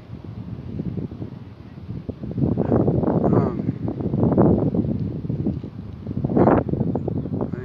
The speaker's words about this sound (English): Sorry about the wind, though. I'm outdoors.